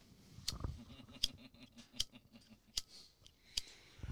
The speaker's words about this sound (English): As God is making sure I can't light my cigarette.